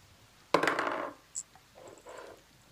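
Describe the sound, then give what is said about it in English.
Dice roll across a table during a tabletop roleplaying game, a sharp clattering rattle that quickly dies away, then a brief tick and a faint, softer second tumble. “One more bad roll, I'm taking that dice from you.”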